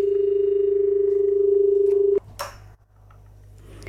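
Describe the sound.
A steady, low telephone line tone hums for about two seconds, then cuts off abruptly into a click and brief line noise as a call is picked up.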